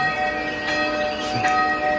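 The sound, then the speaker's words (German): Church bell ringing with a steady, sustained metallic tone, several bright overlapping partials humming evenly without distinct separate strikes. “Viel schöner als die altgeniete Glocke. Viel! Man denkt, da ist ein richtig fetter Engel am Singen.”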